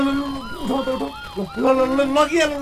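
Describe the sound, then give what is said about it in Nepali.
An ambulance siren at a road accident where a pedestrian was struck, a wailing tone that sweeps up and down in pitch, with voices heard over it. “Ambulance ambulance आयो,”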